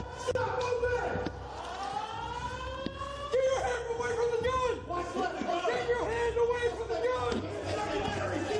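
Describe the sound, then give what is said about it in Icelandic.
Alarm bells ring continuously through a Nashville school during a shooting, a loud, harsh, wavering tone that persists under busy voices and scattered bangs. “maður heyrir í myndböndunum hvernig viðvörunarbjöllunar voru á fullu”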